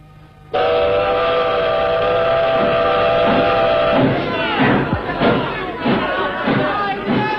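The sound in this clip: A steam train whistle blows loud and steady for about three and a half seconds as the train departs, then gives way to rhythmic chugging bursts from the moving train.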